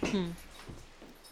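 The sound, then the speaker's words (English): A dog whimpering in a room gives a short, high, tonal whine at the start, followed by fainter snuffly sounds. “Sorry, I had to remove this dog again.”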